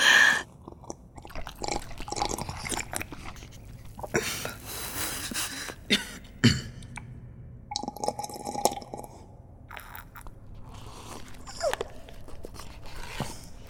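Someone chews shrimp-flavoured ramen noodles in irregular, crunchy, wet bites and mouth noises. The chewing carries on unevenly throughout with short pauses.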